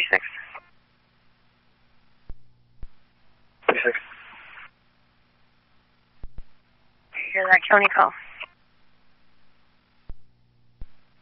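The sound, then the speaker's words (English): A county dispatch call comes over a radio scanner as a few clipped, band-limited voice transmissions separated by silence, with faint squelch clicks between them. “Hear that county call? Negative, I had it turned on.”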